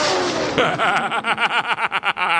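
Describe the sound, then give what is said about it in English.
A car engine revs hard in a racing sound effect meant to depict Wienermobiles racing. The loud motor note pulses in repeated quick surges, each rev rising and dropping in a throbbing rhythm. “And I just relish the thought of the Wienermobiles racing around out there. All right, if you've ever been in the Wienermobile, you know they're not going to be going as fast as what you just heard.”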